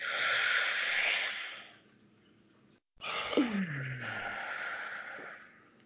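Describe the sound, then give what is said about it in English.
People breathing out deeply together: two long, loud, breathy exhales separated by a short pause, the second carrying a falling voiced sigh. “All right, should we breathe it out? Yes, please.”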